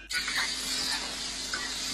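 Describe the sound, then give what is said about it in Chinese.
Sizzling of thin slices of cured pork being stir-fried in a wok, a sudden burst of bright hissing that settles into a steady, moderately loud crackle lasting throughout. “腊肉，切成1厘米宽的薄片，炒出油脂，放入应季的蔬菜，煸炒中咸香溢出”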